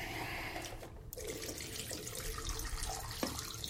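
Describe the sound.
Tap water runs in a cold bathroom for a final rinse, a faint, steady splashing hiss with one brief dip partway through.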